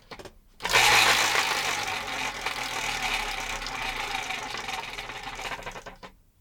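A prize wheel spins with a rapid, dense clattering whir that starts abruptly, holds strong for a few seconds, then gradually weakens before stopping.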